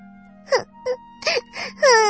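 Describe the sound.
A voice imitates a kitten crying after taking a fall in the rain, giving a few short, high, sobbing wails that end in a longer drawn-out cry, over a steady low hum.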